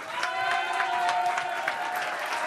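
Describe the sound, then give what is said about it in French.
An audience stands and applauds a singer in a large radio studio, with dense, even clapping throughout and a steady tone running beneath it. “Mesdames, messieurs, je voudrais qu'on se lève et qu'on applaudisse France Gall.”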